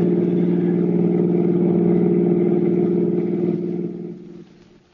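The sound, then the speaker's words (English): A car drives toward the George Washington toll bridge across the Hudson River, its engine a steady low drone that holds constant and then fades away over the last second. “the two criminals and their victim, Mr. Julius Siegel, drove towards the George Washington toll bridge, across the Hudson River in Siegel's car”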